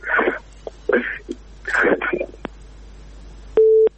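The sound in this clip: A single short, steady telephone tone sounds near the end, after a dropped call, following stretches of muffled talk and a couple of faint clicks.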